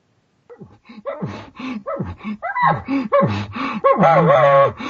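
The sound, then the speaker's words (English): A hunter uses a reed call in his mouth to imitate a bull's huffing groan. A rapid series of short, breathy, grunting huffs builds into a longer, drawn-out groan near the end. “I give what's called the huffing groan and a bull. And I do this with the reed in my mouth.”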